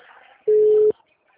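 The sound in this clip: A steady busy tone on a phone line after a dropped call: one flat, mid-pitched beep lasting about half a second, loud against near silence before and after.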